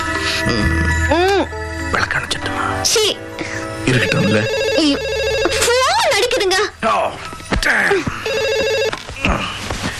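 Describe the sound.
A telephone rings in repeated bursts of a bright, steady trilling tone, with voices and other tonal sounds overlapping between and around the rings.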